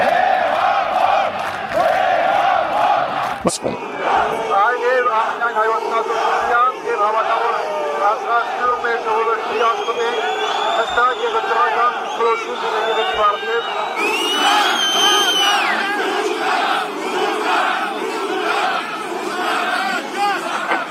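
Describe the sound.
Crowd chanting and shouting slogans at Etchmiadzin: a loud, sustained roar of many voices with cries and cheers throughout.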